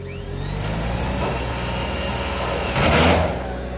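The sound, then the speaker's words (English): A generator runs at a shadeless desert site in the Valley of Fire while a volunteer builds a sun shelter, giving a steady, droning engine hum with a brief louder burst of noise near the end. “volunteer Tom Dickinson runs a generator and drives screws into a sun shelter”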